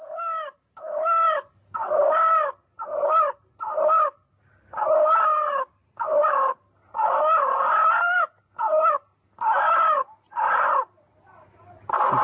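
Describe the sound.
A chicken clucks and crows in many loud, separate bursts of bright, warbling calls, each followed by a short pause, keeping an uneven rhythm throughout.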